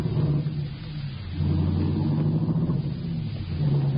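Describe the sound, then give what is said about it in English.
A car drives along with its engine running as a steady, low rumble. The noise grows louder about a third of the way in and then holds level, with no talking. “Just drive me around while we talk.”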